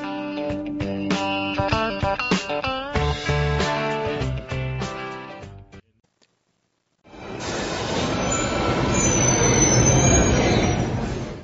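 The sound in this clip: A metro train pulls into a stop with loud, high-pitched wheel squeals in several shifting tones. After a brief silence comes a broad, heavy rumble that swells and then cuts off.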